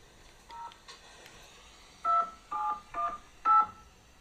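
Telephone keypad dialing tones as a call is placed: two faint early beeps, then four clear, evenly paced tones in quick succession, with no voices.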